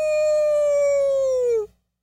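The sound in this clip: A voice imitates a howl: one long, steady, tuneful wail that holds its pitch for nearly two seconds, then dips slightly and cuts off, followed by silence.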